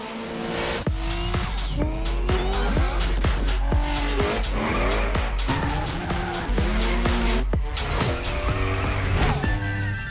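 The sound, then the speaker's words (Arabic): Race cars roar and tires squeal in a trailer for the video game The Crew Motorfest. Engines rev again and again in many rising sweeps, with skidding screeches throughout, loud and continuous. “اطلعت شركة يوبيسوفت في فعاليتها يوبيسوفت فورورد واعلنت عن لعبة السيارات ذا كرو موتور بيست واللي راح تصدر على جميع الاجهزة. خلونا نشوف فيديوها.”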